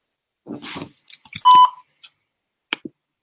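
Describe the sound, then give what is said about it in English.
A voicemail beep sounds as a single loud, steady tone lasting a fraction of a second. Brief clicks and rustling come before it, and a couple of faint ticks follow. “Get that voicemail real quick.”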